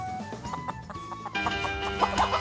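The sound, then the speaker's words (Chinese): Hens cluck in a rapid series of short, throaty calls that grow denser and louder toward the end. “女主把所有孵化的鸡仔呢养大，没想到它们开始下蛋，数量太多”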